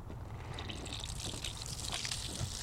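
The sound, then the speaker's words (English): Water runs from a hose hooked up to one of four industrial storage containers, making a soft, steady trickle that holds at a faint level throughout with a slight liquid gurgle. “And then when we want to water something, you just hook a hose up to it, and you can turn it on,”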